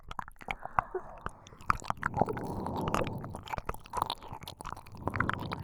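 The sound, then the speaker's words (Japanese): Wet licking with squelchy mouth smacks and many quick, soft clicks over a low, steady murmur. “舐めれば舐めるほど美味しいです。”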